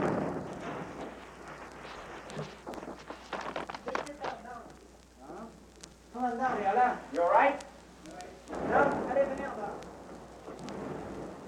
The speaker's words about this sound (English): That was a tank shooting on us because they've seen some people moving in the building.